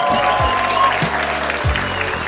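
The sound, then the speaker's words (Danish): Studio audience applause for a comedian being introduced on a TV comedy show, a steady, dense clatter of clapping that holds throughout. “Giv en stor hånd til Carsten Green.”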